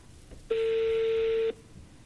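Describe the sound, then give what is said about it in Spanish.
A telephone tone as a call is being placed: a single steady, mid-pitched beep lasting about one second, alone over quiet background noise. “A ver, estamos llamando.”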